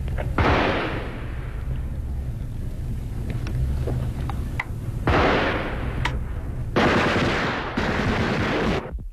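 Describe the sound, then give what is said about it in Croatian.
Gunfire breaks out in fog and snow during wartime fighting near a lakeside hotel, with several loud bursts of rapid fire and sharp single cracks scattered between them. “Odjednom pucnjeva, svi se bacaju u snijeg, ležimo gotovo čitav sat.”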